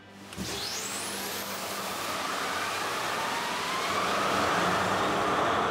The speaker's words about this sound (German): Der Maschinist zeigt den Azubis, wie das geht. 23.000 PS auf Touren bringen.